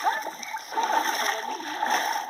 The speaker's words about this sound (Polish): Poranne pluski. Zaparkowaliśmy nad jeziorem. Wstaje rano i idziemy się kąpać.